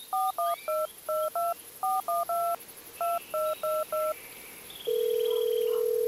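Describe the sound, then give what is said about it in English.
Touch-tone keypad beeps as a telephone number is dialed: twelve quick two-tone presses in short uneven groups, then a steady continuous line tone that holds to the end. “What was the number? She dialed from Nigeria.”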